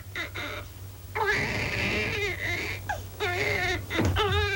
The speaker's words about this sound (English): He's just hungry. I'm sorry, my dear. It's a touch of the colic. He's been crying for 5 minutes.